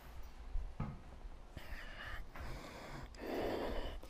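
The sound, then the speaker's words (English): Ujjayi breathing during a yoga practice, drawn in and out through the nose. Soft, hissing nasal breaths come in a few drawn-out waves, faint and unhurried, with the longest breath at the end. “Generate ujjayi breath in through your nose and out through your nose.”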